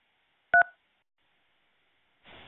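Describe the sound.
Telephone keypad touch-tones beep in a phone chat-line voice menu, a brief loud burst of dual-pitched beeps followed by silence and then a soft hiss at the end.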